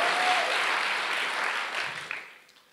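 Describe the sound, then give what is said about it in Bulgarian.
Church audience applauding during a sermon, a broad burst of clapping that gradually fades toward the end. “О, ръкопляскай, като че наистина го вярваш.”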